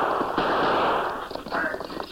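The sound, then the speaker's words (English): Gunfire from an escaped killer shooting from a jouncing wagon on rocky ground: a dense, crackling burst of noise with a few sharper cracks toward the end. “As the wagon jounced across rocky ground, the Lone Ranger saw Gopher. The frightened killer opened fire.”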